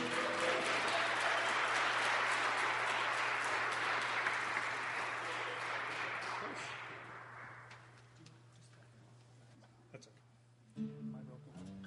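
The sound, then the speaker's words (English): An audience applauds to welcome a musician to the stage, a dense steady clapping that stays loud for several seconds, then gradually thins and fades away. “So we should probably make him feel pretty welcome here and give him a big hand, Mr. Brett Larson.”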